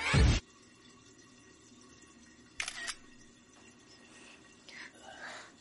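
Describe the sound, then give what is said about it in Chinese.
A camera shutter firing as a photo is taken: one loud, sharp click at the start, followed later by two fainter clicks against a quiet background. “真的？我不信，拍张照来看看。 拍照。”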